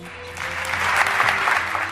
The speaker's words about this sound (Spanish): Palabras de agradecimiento a las que el administrador apostólico también respondía y a las que la gente respaldó de nuevo con una ovación.